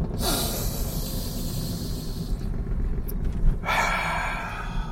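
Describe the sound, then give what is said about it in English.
Deep, slow breaths taken deliberately as a breathing exercise, two long, loud, airy rushes of breath separated by a short quiet gap, with no talk over them. “Here we go. Three deep breaths. Go.”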